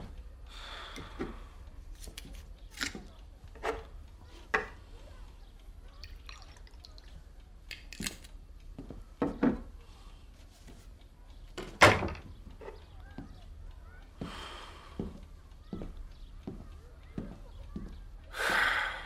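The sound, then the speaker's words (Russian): A cupboard opening and vodka being poured come through as scattered quiet knocks, clicks and small liquid drips and trickles spread over a long stretch. “Аристарх заходит к себе, открывает шкаф, наливает водочки.”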